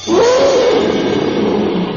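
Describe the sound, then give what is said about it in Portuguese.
A jaguar lets out a big, drawn-out meow-like cry, a loud sustained call lasting about two seconds that rises in pitch and then falls. “a onça de tão contente soltou um grande miado.”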